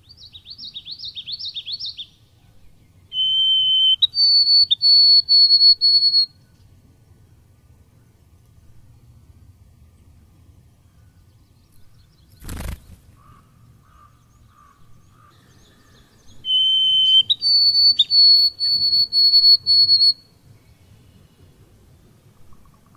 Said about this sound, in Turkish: İsterseniz önce kısacık bir duyalım bu beyaz boyunlu kuyruklu serçe sesini.